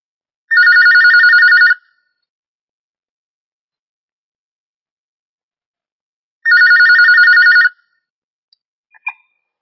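An incoming telephone call for a question produces two long electronic rings, each a buzzy warbling tone lasting about a second, separated by a long silence. A few faint clicks follow after the second ring.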